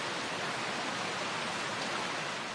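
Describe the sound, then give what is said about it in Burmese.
Steady rain falls as a dense, unbroken hiss of countless drops, even in loudness from start to end, with no voices or other sounds. “မိုးသေးသေးထန်ထန်ရွာတာကိုဇာဇာလို့ပြောပါတယ”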